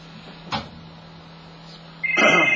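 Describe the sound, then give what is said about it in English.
A telephone starts ringing late in the call, a bright electronic trill that breaks in loudly after a quiet stretch and carries on to the end. “And who's trying to call me at this hour?”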